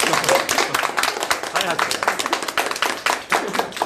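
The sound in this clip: A group of people clapping together on cue, with many quick, sharp claps in an uneven patter and voices talking over them.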